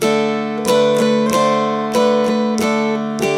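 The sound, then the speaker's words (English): Dulcimer playing Old Joe Clark with a bum diddy strum: bright, ringing strummed chords over steady droning strings, with accented strums repeating in a lilting long-short-short pattern, loud and alone. “Now, the way a lot of people would play that with a bum diddy strum might sound like this if you hear it in a dulcimer jam.”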